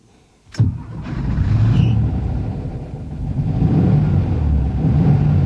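A car engine starts with a sharp crank and catch, then settles into a loud, steady idle rumble that swells slightly as it revs near the end.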